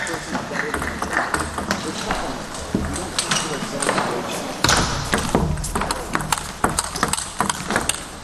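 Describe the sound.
A table tennis rally in a professional match, with many quick, light ball hits bouncing back and forth in a rapid, uneven rhythm beneath continuous commentary.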